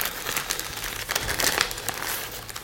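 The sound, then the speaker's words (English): Crinkling and crackling as a tamper-evident micro CISA security sticker made by DataTag is handled. The sound comes in irregular papery bursts at a fairly quiet level, with no talking. “we use something called micro CISA. So what that is effectively a sticker, which is a tamper-proof, tamper-evident sticker. I'll show it to you.”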